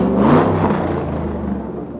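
A combustion car engine revs with a low, rumbling drone and strong bass harmonics. It is loudest at the start and eases slightly as it continues, with no voices present.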